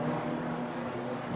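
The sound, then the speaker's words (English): Honda race car engine pulling away from the pit box as the number 33 car leaves, a steady, loud buzzing drone with a strong low hum and little change in pitch. “33, the car is out. There goes the Honda on Arjuna's pit mic there.”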